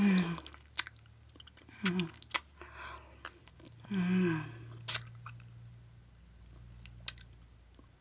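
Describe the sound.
Chewing food: moist, irregular clicks and crunches scattered through the stretch, with a few short vocal murmurs between bites and a low steady hum underneath.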